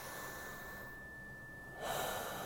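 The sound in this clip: A long, quiet inhale during a seated meditation, followed near the end by a louder, breathy cleansing exhale that rushes in abruptly and continues to the close.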